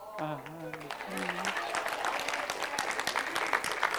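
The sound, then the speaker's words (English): Audience clapping at a talk about a couple's upcoming twentieth wedding anniversary; a short voice is heard first, then scattered hand claps swell into steady, moderately loud applause that carries to the end. “are you clapping because I know the date and the year?”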